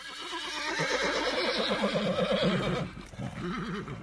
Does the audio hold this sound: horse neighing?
yes